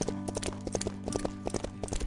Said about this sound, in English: The horse just started plodding down the road.